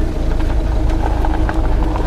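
Limousine engine rumbling as the car drives off, a steady, loud low hum with faint mechanical ticking and no voices.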